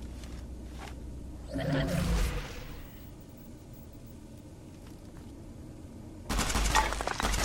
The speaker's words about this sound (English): Something's shooting at me.